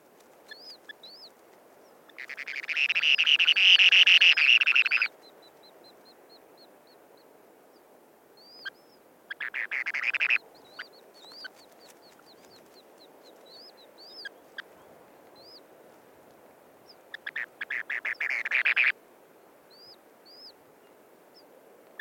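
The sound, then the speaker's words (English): Spoon-billed sandpiper with chicks just hatched in the nest bowl: many thin, high peeps scattered throughout, broken by three louder, buzzy trilling bursts, the first and longest lasting about three seconds. “So that's the spoon-billed sandpiper and chicks in their nest, recorded by Garrett Vinn.”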